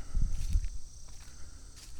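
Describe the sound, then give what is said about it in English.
Footsteps walking along a path above a ravine, a few soft steps that are louder at first and then fainter, with no talk. “Oh, I'm walking along the path.”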